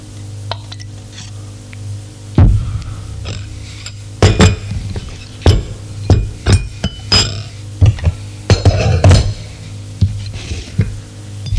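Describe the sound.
Cups, saucers and cutlery clink as tea with sugar is served, with many irregular sharp clinks and taps of varied loudness over a steady low hum.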